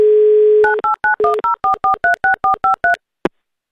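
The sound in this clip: A telephone dial tone hums steadily while a listener is called, then breaks off into twelve quick touch-tone key beeps in an even rhythm, followed by a single short click before silence.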